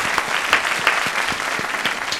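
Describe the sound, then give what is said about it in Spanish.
Applause for the panel of guests on a talk show: a steady patter of clapping from a small group, moderately loud and continuous, with no talk over it. “un aplauso a todos nuestros contertulios, por favor. ¡Bravo!”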